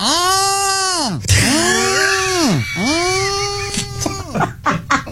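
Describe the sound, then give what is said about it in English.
A human voice imitates mating turtles with two long, strained moaning calls. Each swoops up in pitch, holds, then slides back down, followed by a few short breathy bursts. “So I got to see and hear with my own eyes what it is when turtles mate. And it sounds a little like this.”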